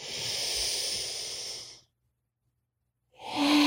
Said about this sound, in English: We just want to hold that breath at the top of the inhale and then release all that bad energy, all that bad air.